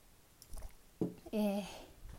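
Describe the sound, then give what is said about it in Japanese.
A sip of tea taken during a break in talking: short, quiet wet mouth sounds, then a brief louder voiced exhale, each lasting only a moment. “ちょっと疲れた、お茶飲むわ”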